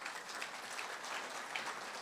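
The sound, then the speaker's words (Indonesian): Faint, even applause at a supplement and skincare product presentation, a soft continuous patter of many hands clapping at a steady level throughout. “Tepuk tangan dong.”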